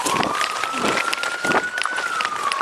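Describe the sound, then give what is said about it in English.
An officer runs up a driveway with quick, steady footfalls, and a thin, steady whistling tone holds beneath the rapid steps throughout. “We join back up with the officer as they're running up the driveway.”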